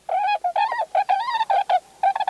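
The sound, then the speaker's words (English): Trumpeter or tundra swans calling in a rapid series of short, nasal honks. The calls are clear and tonal, with strong harmonics and brief gaps between them, and no other sounds are heard. “Trumpeter swans winter mostly in the Pacific Northwest, while tundra swans can be found along both coasts and at a variety of inland sites in the west.”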